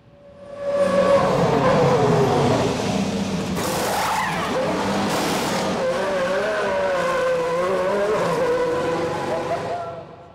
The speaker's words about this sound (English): So 1.6 seconds to change four wheels and tires. And you can imagine the training that goes into that, and that's just typical of Formula One.